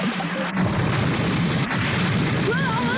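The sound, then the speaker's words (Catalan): Bombs fired from a submarine explode against a rock wall in a heavy, continuous booming rumble that stays loud throughout. “Les bombes s'estavellen contra la paret davant seu i la nau tremola entre fragments de roca que cauen.”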